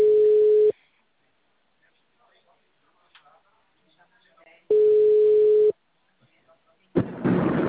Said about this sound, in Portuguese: Um ódio quando essa ligação cai.